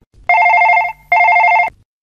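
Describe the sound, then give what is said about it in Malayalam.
Telephone ringing on an outgoing call: two loud, steady trilling ring bursts of equal length separated by a brief pause, heard alone. “നമുക്ക് അനിതയെ വിളിച്ചു നോക്കാം.”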